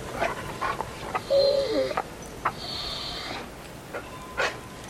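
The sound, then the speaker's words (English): An anxious dog whimpers while being fed from a lowered plate, giving a few thin, high whines among soft clicks and breaths. No one speaks. “She lowers the plate. The dog watches her, anxious.”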